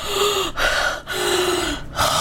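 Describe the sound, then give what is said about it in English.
A series of loud, harsh gasping breaths, like someone suddenly drawing air after holding their breath. The heaving intakes are separated by short pauses and carry a rough voiced edge. “Deacon gasps and he falls over, like, in his chair, like his breath was being held”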